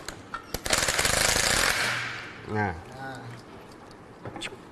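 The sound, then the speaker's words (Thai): A power tool rattles while removing a rear clutch assembly, a loud rapid hammering burst lasting about a second after a few sharp clicks, followed by a voice speaking and a few faint clanks. “อาจารย์กำลังถอดอะไรอยู่ครับ ถอดชุดชามครับชุดชามหลัง”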